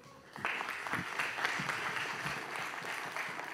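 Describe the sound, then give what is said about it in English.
Church audience applause at Grace Point welcoming a guest speaker, starting abruptly after a brief quiet moment and carrying on as steady, full clapping. “Can you please give a warm Grace Point welcome to Jim Wilson?”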